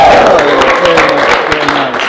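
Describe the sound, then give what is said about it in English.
An audience gives a short round of applause for a guest being introduced at an in-person panel event. The clapping is dense and steady, lasting only a couple of seconds. “Give a round of applause for Rob.”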